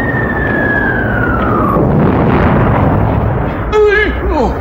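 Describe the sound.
Grenade explosions in a radio drama battle against tanks make a dense, roaring rumble. An early falling whistle sinks in pitch, and voices break through briefly near the end.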